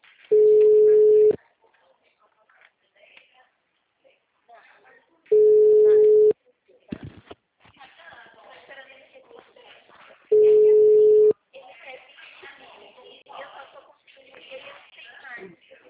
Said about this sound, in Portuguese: Está chamando.